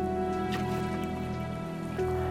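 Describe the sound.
Rain falling on a rainy day during oil spill cleanup in Prince William Sound: a faint, steady patter and hiss with a constant low hum underneath and no voices.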